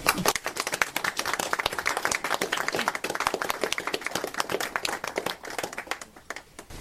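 Audience applause welcoming an author to a book event, a dense crackle of many hands clapping at an even, lively level, then thinning and fading near the end.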